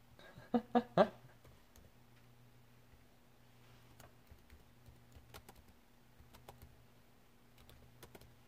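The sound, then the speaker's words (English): Computer keyboard typing as a search is entered: a quick burst of a few louder keystrokes at the start, then sparse, faint scattered clicks over a steady low hum. “I just typed in Skyrim on new console.”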